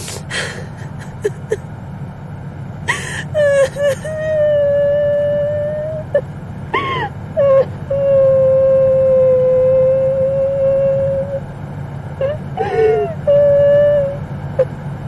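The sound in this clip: A woman, frostbitten after being rescued, cries in a car, breaking into loud, high, drawn-out wavering wails between sharp gasps and sobbing breaths, with several long sustained cries.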